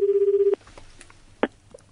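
A telephone rings as a landline call comes through, a steady pulsing electronic tone lasting about half a second before cutting off, followed by a few faint clicks.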